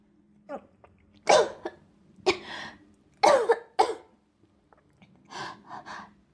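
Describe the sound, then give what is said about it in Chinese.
A person coughs after choking on water, giving four harsh, loud coughs with gasping breaths between them. Quieter voiced, throaty sounds follow near the end, with short silences in between. “啊，没事，刚刚喝水不小心呛了一下。”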